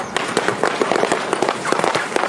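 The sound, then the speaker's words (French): Balloons popping as a car rolls over them, used to imitate fireworks. Many sharp, irregular bangs follow in quick succession over a rough background hiss. “le feu d'artifice, des ballons sur lesquels roule une voiture.”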